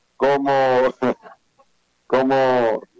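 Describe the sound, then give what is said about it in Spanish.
A chicken clucks in two long, loud squawks with a pause between them, and a few shorter, softer clucks follow the first. “Ese es el pollo”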